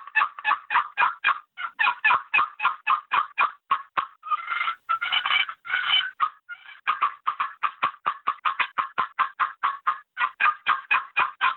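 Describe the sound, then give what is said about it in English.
Many quick, evenly spaced turkey yelps come from a scratch box call, a soft, earthy rasping tone repeated nonstop, with a short, denser raspy cluster partway through and no voices. “That's a sound you can sit at the base of a big oak tree and run a scratch box like that nonstop, and you'll never scare a turkey away with it.”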